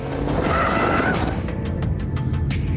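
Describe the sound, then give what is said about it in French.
A twin-turbo V8 Aston Martin Vantage with an aluminium chassis roars hard on a circuit west of Paris. The loud, continuous engine note is mixed with tyre skidding and squeal. “Tandis que le V8 biturbo s'époumonne gaiement.”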